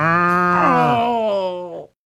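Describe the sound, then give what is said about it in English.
A cow moos once: a single loud, deep, harmonic bellow lasting nearly two seconds before it stops abruptly. “I think this cow likes me.”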